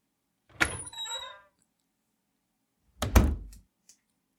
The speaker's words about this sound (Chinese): 先去把门关上，把帘子拉起来。